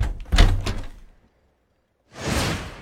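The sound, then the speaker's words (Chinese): An apartment door is unlocked and opened: a short burst of clattering metallic clicks, a brief silence, then a broad, airy swish. “走到门前，开了锁，打开房门。”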